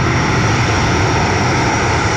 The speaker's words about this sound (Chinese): 随着固定翼反潜巡逻机抵达任务空域